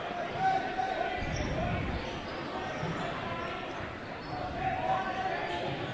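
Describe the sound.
A basketball is dribbled on the court during a game, its repeated bounces thudding beneath a constant background of crowd noise and arena ambience.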